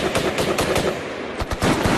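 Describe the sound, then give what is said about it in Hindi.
A light machine gun fires bursts at enemy troops in battle: rapid, sharp cracking shots packed into loud bursts, with a brief lull before the firing picks up again. “घायल अवस्था में भी पूरी फुर्ती से हवलदार दयाराम ने LMG को संभालते हुए दुश्मनों पर गोलियों की बौछार शुरू कर दी।”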